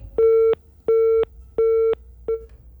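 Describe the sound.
A phone's disconnect tone sounds after a call drops amid network trouble. Four steady, single-pitch beeps come at an even pace, the last noticeably shorter than the first three, with no talking.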